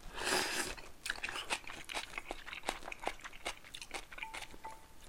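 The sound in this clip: Crunchy spicy food being chewed, with many crisp, irregular crunching bites and soft crackles following one another steadily, and no voices.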